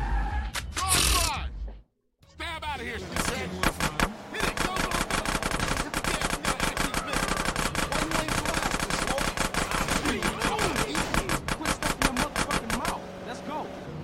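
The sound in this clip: Rapid automatic gunfire in a video game set in enemy gang territory: dense, sustained bursts of sharp shots that start after a brief silence and run on loudly, with game voices faintly mixed in.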